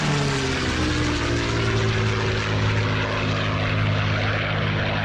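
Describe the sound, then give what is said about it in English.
A Supermarine Spitfire fighter aircraft flies by, its propeller engine giving a steady, loud, throbbing drone that holds without a break and with no voices. “The sound of a Supermarine Spitfire, the fighter aircraft that became a legend.”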